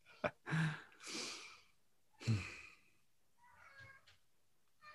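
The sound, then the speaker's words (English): A person groaning in a few drawn-out, breathy vocal bursts, strained and fairly faint, with softer tonal moans trailing off toward the end. “Sorry, guys. Let me just groan out for a second.”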